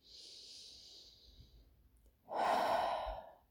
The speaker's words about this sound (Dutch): Adem nog een keertje in en uit.